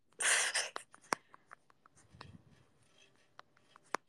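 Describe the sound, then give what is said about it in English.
A pen scratches out ideas by hand late at night: a louder rustling scrape at first, then faint, irregular scratches and light taps. “I'm writing down ideas. A lot of my ideas for shorts and stuff happen late at night because my brain won't turn off.”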